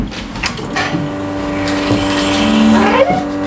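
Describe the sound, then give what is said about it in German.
A coffee machine brewing coffee gives a continuous loud mechanical groan, steady throughout, with tonal whining strands that bend upward near the end; no talking. “einen richtig gut hergestellten Kaffee, der schmeckt bei jeder Temperatur. Die gute Herstellung, die klingt dann ungefähr so.”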